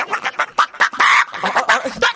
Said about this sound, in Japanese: なんか来てた の、なんか来て、鳥 っぽい。